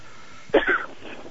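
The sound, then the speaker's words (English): A sick interviewee coughs once, a short, rough hack with a throat-clearing edge. It lasts only a fraction of a second against a quiet background. “pardon me if I'm coughing and hacking up everywhere”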